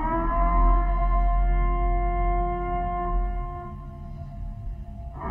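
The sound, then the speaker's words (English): A long, steady siren that sounds at sundown drones alone as a sustained, layered tone, holding almost unchanged for several seconds before shifting slightly at the very end. “That's just a siren. Well, it repeats that, but yeah, it's like a long one and it starts at sundown.”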